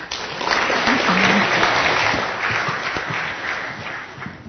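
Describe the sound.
An audience applauds to welcome a speaker at a talk. The clapping is dense and sustained, swells early and slowly thins out, with a faint voice briefly audible.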